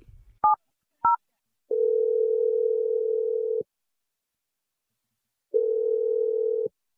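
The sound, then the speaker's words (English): A telephone call being placed: two short dual-tone keypad beeps, then two long, steady ringback tones separated by a silent gap. “I'm going to dial his number. Let's hopefully he picks up.”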